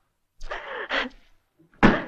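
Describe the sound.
A door is shut and locked with a single hard slam, heard after a brief vocal exclamation and a short silence.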